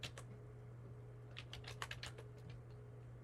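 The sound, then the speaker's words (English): Quick clicking keystrokes as a name is typed into a search on a computer keyboard: a couple of isolated taps, then a fast cluster of several faint clicks before it falls quiet. “Can I type the whole name and still find it?”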